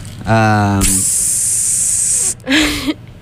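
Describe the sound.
A voice imitates a train hissing as it pulls into a station: a steady, loud, sharp hiss held for over a second, with short voiced sounds just before and after it.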